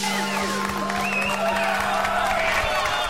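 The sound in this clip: Audience cheering at the end of a song: a dense, steady roar of crowd noise with scattered whoops that holds at one loudness for the whole stretch.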